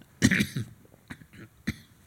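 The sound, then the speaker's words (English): A man coughing in three harsh bursts, a longer first cough followed by two shorter ones, loud and alone. “Sorry, he's coughing.”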